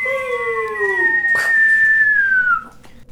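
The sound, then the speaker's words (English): A human voice whistles in imitation of an artillery simulant: a sustained high tone drifting slowly downward for about two and a half seconds, with a brief noisy burst partway through, then fading out. “Imagine okay, being able to whistle. That is what artillery simulants sound like, and they're fucking terrifying.”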